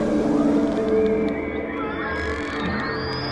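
Sound art composition inspired by humpback whale songs: a dense wash of layered, sustained tones with gliding whale-like calls and moans, and thin high tones rising toward the end.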